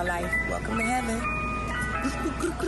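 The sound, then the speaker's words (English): An ice cream truck plays its tinkling, melodic jingle steadily throughout, running beneath people talking. “Are they in an ice cream truck? Yeah. Right. I don't know why the ice cream truck.”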